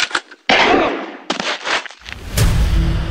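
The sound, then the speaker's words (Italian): Gunshots fired at a fleeing man: several loud, sharp blasts in close succession, each with a noisy trailing burst, then a heavier rumbling shot near the end. “Corri! Aiuto! Mi sta sparando!”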